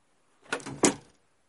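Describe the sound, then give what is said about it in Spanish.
A door swings shut by itself: two quick, dull knocks close together, the second slightly louder, then the sound fades into silence. “Pero antes de llegar a la puerta, se cerró sin que nadie la tocara.”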